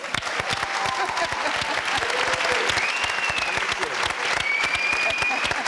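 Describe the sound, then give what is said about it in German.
Clapping from an audience at a TV celebration of two decades of the Cologne Tatort series, thick and sustained, running at a steady loud level without pause. “Auch hier ein Glückwunsch. Den können wir direkt nochmal applaudieren.”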